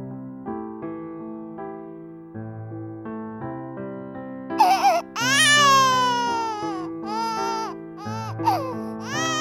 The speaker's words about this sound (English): The baby kept on wailing, and Alfred just played a little louder.